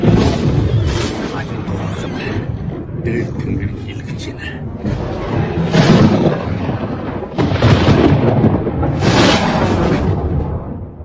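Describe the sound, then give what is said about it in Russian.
Thunder rumbling in a thunderstorm over the Mongolian steppe in a film scene, a loud continuous low roar with several sharper bursts swelling through it. “Когда гром гремит, это значит, бог Тенгри гневается. Поэтому все монголы боятся грозы.”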